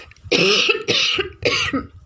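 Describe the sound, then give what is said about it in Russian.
A man coughs several times in short, harsh bursts with brief pauses between them; the last bursts are weaker. “Пал Палыч минутку подумал и закашлялся.”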